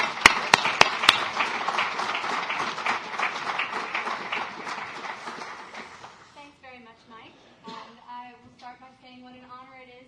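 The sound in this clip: Audience applause welcomes two professors at a Brookings event: dense, steady clapping with a few sharp, louder claps at the start, holding for about six seconds before thinning out as one voice begins speaking.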